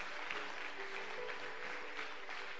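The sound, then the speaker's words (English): Church audience clapping for departing members: a soft, steady patter of many hands that stays at an even level throughout. “Clap for them as they go. Show some love.”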